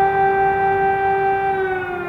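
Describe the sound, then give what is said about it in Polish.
Air raid alarm sirens wail in Kyiv, one loud, sustained tone holding level and sagging slightly in pitch near the end. “3 lata temu, moment, kiedy w Kijowie pierwszy raz zawyły syreny alarmowe.”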